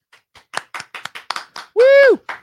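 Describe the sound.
Handclaps from a small group welcoming a guest onto a show: about eight sharp, separate claps in loose rhythm, then a loud high whoop from a voice, and one more clap at the end.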